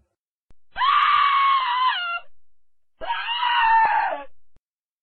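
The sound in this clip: A person screams twice: two long, loud, sustained cries separated by a short pause, set against silence.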